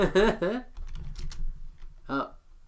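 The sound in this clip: Computer keyboard typing, a few light rapid clicks between stretches of people talking.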